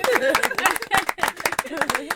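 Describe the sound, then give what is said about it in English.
People clapping at the close of a church sermon on marriage, quick and irregular claps mixed with voices talking over them. “We always round off, oh yeah, let's clap to that.”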